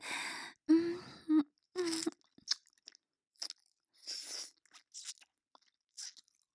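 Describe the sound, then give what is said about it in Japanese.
Crunching and chewing of someone eating. A voice makes a few drawn-out sounds first, then many short, crisp bites and crunches follow in an uneven rhythm, fairly faint, with quiet gaps between them. “人が…人を食べるのは久しぶりです。”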